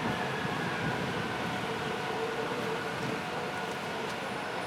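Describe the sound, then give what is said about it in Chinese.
A Shanghai Metro Line 5 train pulls into a station with a steady, low mechanical rumble and hum, fairly faint and even throughout, with no talking. “又一辆五号线进站。”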